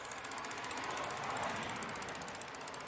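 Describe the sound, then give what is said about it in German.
A bicycle freewheel ratchet clicks while riding, giving a rapid, steady stream of faint mechanical ticks that runs evenly throughout without voices. “Ich fahre also hin der Umwelt zuliebe mit dem Fahrrad und weil ich keinen Führerschein besitze.”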